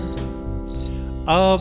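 Katydid chirping in three short, high-pitched buzzing bursts, set over a steady low harmonic drone that runs throughout.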